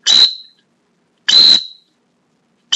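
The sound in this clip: Shrill whistle blasts used to stop a retriever running through lunging water: two loud, piercing blasts of about half a second each, separated by a long pause, with a third beginning at the very end.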